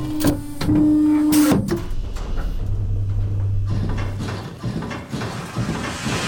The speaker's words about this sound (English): That is some seriously great goop. It's basically radioactive. Loading machine. Pressing Flarshmarfler button.